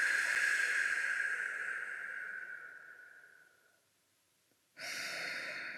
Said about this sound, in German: Tief einatmen, langsam ausatmen.